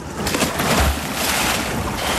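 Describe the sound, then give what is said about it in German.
A swimmer dives headfirst into an outdoor swimming pool, making a loud, rushing watery splash with a low thump early on, and the churning water noise continues steadily to the end. “Hat man richtig gehört, gell? War ein richtiger Köpfler und jetzt krault sie dahin.”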